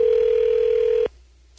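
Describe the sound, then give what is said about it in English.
Telephone dial tone heard while dialing a listener's number: one steady, loud, mid-pitched tone that holds for about a second, then cuts off abruptly, leaving only a faint low hum. “We have that phone number, so let's dial it up and see who he or she is and what they're all about.”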